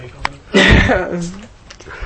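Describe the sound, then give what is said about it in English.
A single abrupt, loud cough bursts out and is followed directly by talk. “excuse me, I'm coughing”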